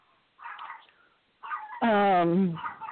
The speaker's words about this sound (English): Sorry, excuse my dog.